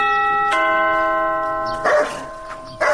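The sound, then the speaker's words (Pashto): A front-door bell rings at a house: a sustained, clear electronic chime with several tones strikes and rings on, and two short bursts of noise follow near the end. “درېږه دا د دروازې زنګ ووهم”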